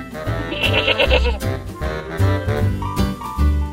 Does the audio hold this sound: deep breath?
no